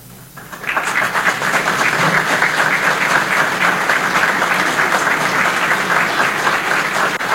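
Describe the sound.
Audience applause welcomes guests at a community ceremony marking a 121st anniversary, swelling in after a brief quiet start and then holding as steady, dense clapping to the end.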